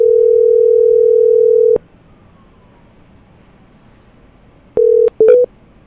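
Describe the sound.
Telephone dial tone after a call is disconnected: a loud, steady, low hum runs for about two seconds and cuts off abruptly, then after a long silence briefly returns with sharp clicks and short tone blips.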